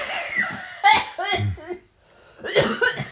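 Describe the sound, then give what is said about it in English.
Coughing comes in a few sharp, rough bursts amid people talking, loud against the chatter, with a brief quiet gap between the coughs. “No coughs like that in San Francisco.”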